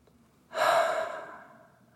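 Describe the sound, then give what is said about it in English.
A person breathes out loudly through the mouth during a guided breathing exercise. It is a single breathy exhale that rises quickly, then tapers slowly, alone against quiet. “And a loud exhale from the mouth. And 2 more of those. Loud exhale from the mouth. And 1 more.”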